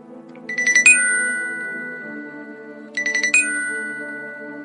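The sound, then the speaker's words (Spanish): A telephone rings twice, each ring a quick bright trill of electronic chimes ending on a sustained high tone, over a soft low steady background. “a Peter le surgió la necesidad, la imperiosa urgencia de contactar con el amable señor Albert House, el cual fue gratamente sorprendido con la llamada de Peter.”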